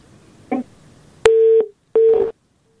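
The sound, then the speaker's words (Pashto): A telephone busy tone after a dropped call: a brief click, then two steady mid-pitched beeps separated by a short gap, loud and with no voices. “متاسفانه اړیکه یې پرې شله.”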